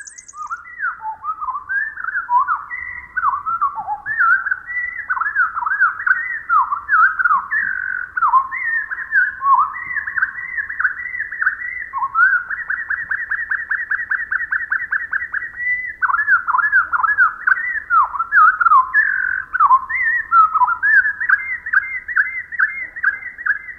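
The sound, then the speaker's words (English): Winter wren song played back at quarter speed: a long, loud run of slow, swooping whistled notes and slurred phrases broken by stretched-out trills, continuing alone without any talk. “The bird, with its speeded-up time sense, must feel as if it had sung the equivalent of an operatic aria. Let's listen again. But this time with the song slowed down to a quarter speed.”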